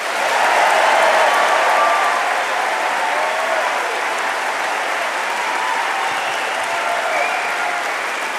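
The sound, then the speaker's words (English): An audience applauds to welcome Elvis Costello to the open-air stage at Tanglewood. Dense, steady clapping fills the whole stretch, loudest at the start and then settling a little, with no talk over it. “Ladies and gentlemen, let's give a warm Tanglewood welcome to Mr. Elvis Costello.”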